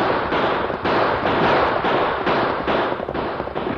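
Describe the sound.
Gunshots in a radio western drama during an outlaw stagecoach holdup, many loud, sharp cracks fired in quick irregular succession.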